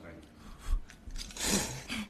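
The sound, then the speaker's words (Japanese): Someone eating a warm miso dish: faint chewing and biting with a few soft, crunchy bursts of mouth noise spread unevenly across the moment. “ふうふうしてるあったかい方今僕いただいてるんですけどね、めっちゃくちゃうまいよこれ”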